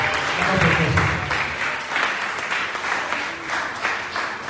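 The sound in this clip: A church audience applauding and acclaiming the Lord: loud, dense clapping that continues throughout at a steady level, with voices mixed in.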